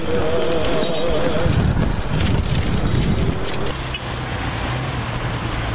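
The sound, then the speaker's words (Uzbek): Rumbling of a military convoy of vehicles carrying missiles on the road toward Moscow, a loud continuous roadway drone that drops to a lower, quieter engine hum near the end. “Raketalar olib ketayotgan ushbu harbiy karvon 9 may kuni 2 jahon urushi tugashiga bag'ishlangan parad oldidan Moskvaga yo'l oldi.”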